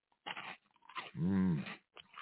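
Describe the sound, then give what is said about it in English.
Spicy Flamin' Hot Fries snacks are crunched, with a few short, faint crunchy bursts broken by a hummed, voiced tone in the middle. “Get me a couple of Flamin' Hot Fries. You ready? 3, 2, 1. Ooh, that's a good one. They're spicy. Good snappy crunch.”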